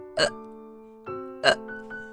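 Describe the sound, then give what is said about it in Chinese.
A voice imitates a little bear's hiccups in a children's story: a few sharp hiccup bursts, the second and fourth fainter, over a soft sustained musical tone. “他又打起嗝来。”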